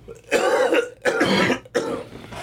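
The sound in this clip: Three harsh, rough coughs from a person, evenly spaced and fairly loud, with short quiet gaps between them and no talking.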